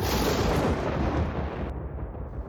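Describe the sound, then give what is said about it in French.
Cloth tearing from top to bottom with a loud, thunder-like rumbling roar. The dense rush fills the whole clip and eases slightly toward the end. “elle passa ses doigts dans une des ouvertures, tira légèrement, la toile se déchira du haut en bas avec un bruit semblable au tonnerre”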